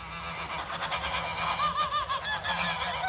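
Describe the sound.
A goose honking in a farmyard: a quick run of short, nasal honks, with clearer warbling calls in the middle of the series, alone without talk.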